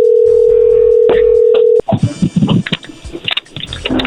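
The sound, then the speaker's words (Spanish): A steady telephone dial tone holds for almost two seconds before cutting off as a call is dialed, giving way to a choppy run of clicks and muffled sounds. “ahí se está marcando”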